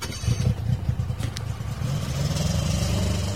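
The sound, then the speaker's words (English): A brand new snowmobile engine near McMurdo Sound, Antarctica, rumbles at a steady low idle with small rhythmic pulses, fairly loud and alone, with no talk. “And to do that, you first gas up a brand new snowmobile parked just down the road from the main U.S. base at McMurdo Sound.”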